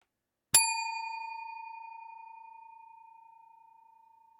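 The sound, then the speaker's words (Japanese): A single bright bell strike rings once, then holds a clear, steady tone that slowly fades over several seconds. No voices are heard. “そしてベルの音で年齢が下がっていく。”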